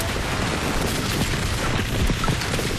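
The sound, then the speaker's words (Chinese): Machine gun fire in a wartime battle scene: a dense, rapid fusillade of shots that stays loud and unbroken for the whole short burst, with no voices. “机枪！”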